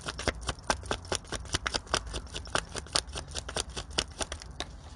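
Tarot cards being shuffled, a fast, steady run of many crisp papery flicks and snaps from start to end, with no talking.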